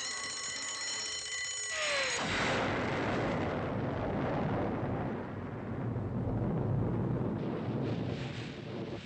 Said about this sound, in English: it was a bomb.